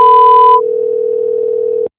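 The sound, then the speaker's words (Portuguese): A steady electronic voicemail beep from a phone line sounds before message recording. It starts bright and buzzy, then settles into one plain mid-pitched tone for over a second before cutting off abruptly. “Sua chamada está sendo encaminhada para a caixa de mensagens e estará sujeita à cobrança após o sinal.”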